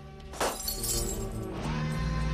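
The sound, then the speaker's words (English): A light bulb smashed by a man reaching up in 1983 Los Angeles gives a single sharp, bright glass shatter early on, followed by a short crackling tail, all over steady background music. “Through the viewfinder, one of the car guys reaches up and smashes a light bulb.”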